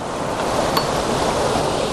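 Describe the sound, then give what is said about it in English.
A waterfall heard from close up in a valley gives a steady, full rushing roar of falling water, constant in level throughout with no voices. “If I get down here, I can get nice and low, very close to this waterfall.”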